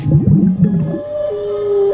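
Bowhead whale vocalization: a dense run of overlapping, swooping low moans gives way to a steady, drawn-out higher tone that holds to the end, loud and alone with no voices.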